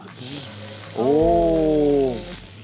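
Meat sizzling as it goes into a hot pan beside onions: a steady hiss is joined by a loud, sustained whining tone for about a second and a half before it drops back to the hiss.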